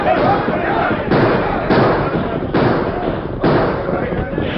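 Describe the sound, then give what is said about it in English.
Gunfire effect in a western radio drama as an outlaw gang and a ring of armed men exchange shots: several loud, broad bursts of firing, each cracking out and trailing into a dense rumble. “Then, surprised and desperate, the Gila Kid and his men opened fire.”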